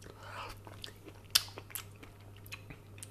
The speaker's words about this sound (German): Aber ich wollte ja jetzt noch den Kochkast fertig machen, deswegen probiere ich einfach mal, wie es denn aktuell schmeckt.